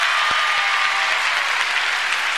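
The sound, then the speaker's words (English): Congregation applause at a worship service: many people clapping their hands in a loud, steady, dense wash, with a couple of low thumps near the start. “Let's give Jesus Christ a hand clap, everybody.”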